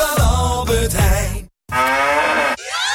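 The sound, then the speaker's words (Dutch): Cow mooing, the moo sound from Müllermilch bottles: two long, loud, harmonic bellows with a brief silence between them. “Al 1 van de 4 Müllermilkflesjes met het moe-geluid is gevonden.”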